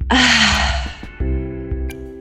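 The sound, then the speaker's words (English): A deep breath drawn in and let out during a guided breathing moment, heard as one long, loud, airy rush of breath with steady low tones beneath, followed by a quieter stretch. “Will you guys do the deep breath with me? Absolutely. Okay. Inhale. Exhale, let it out.”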